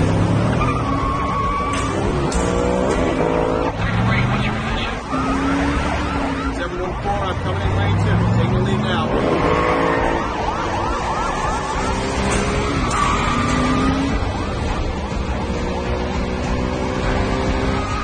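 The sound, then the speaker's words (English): Wailing sirens and roaring car engines from several police cars with flashing lights chasing a fleeing driver, with tire skids through the street pursuit. The sound is loud and continuous, with sirens rising and falling over the whole stretch. “Several cars pursue him, lights flashing.”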